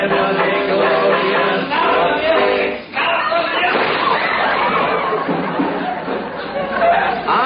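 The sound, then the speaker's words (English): A single sharp gunshot sound effect cracks out in an old radio comedy, set against steady crowd chatter and murmuring that continues before and after the shot. “You shot him. Who was he? The sponsor.”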